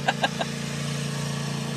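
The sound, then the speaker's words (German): A lawnmower engine runs with a steady, droning hum as it cuts across asphalt rather than grass, and a few short, sharp bursts sit over the drone at the start. “Mäht er jetzt... Achso, ich dachte schon, der mäht jetzt unsere Wiese hier. Der mäht jetzt den Asphalt hier.”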